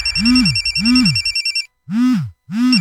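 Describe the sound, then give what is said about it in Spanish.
A telephone rings with a warbling, high trilling bell alongside a repeated low swooping tone. The two sound together in a steady rhythm, then the bell stops and the swooping tone carries on alone for two more bursts. “¿por qué no contestan? ¿Eh? ¿Qué no ves que Meli Mar te está llamando?”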